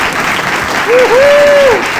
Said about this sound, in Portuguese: Por favor, uma salva de palmas!